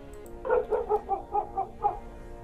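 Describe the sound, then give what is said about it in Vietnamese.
A dog barks fiercely at night in a quick, steady run of seven sharp, mid-pitched barks, loud against an otherwise quiet background. “lúc này vang lên tiếng chó sủa. Tiếng chó sủa rất dữ dội, nghe mà sốt cả ruột.”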